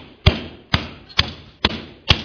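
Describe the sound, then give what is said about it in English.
Five heavy hammer blows land at an even, steady pace, each a sharp thud that dies away quickly, with no voices. “I need a bigger hammer.”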